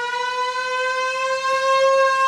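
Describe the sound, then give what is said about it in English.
An air raid siren, used as a lunchtime signal for the men at a bunker, sounds a loud, sustained wail. Its pitch holds nearly steady and its rich tone is heard alone for the whole clip. “it's an air raid siren. That sounds like it. Did you hear it? Okay, that's an air raid siren right there.”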